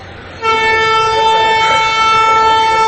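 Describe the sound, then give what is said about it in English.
A loud train horn on an active railway starts abruptly and blares as one steady, sustained tone to the end, with no break. “But there is a railway... that's still active, that runs in this area.”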